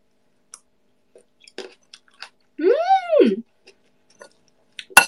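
Chewing food while tasting a lemon-seasoned marinated dish: faint, scattered wet clicks and smacks of the mouth, with a hummed appreciative tone in the middle and a sharper click at the end.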